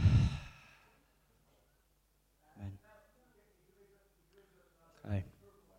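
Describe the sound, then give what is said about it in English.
A group breathing exercise: one strong, airy breath release opens, then quiet, and later two short, faint breathy sounds with a slight voiced tone. “take some deep breaths in, hold, and then release.”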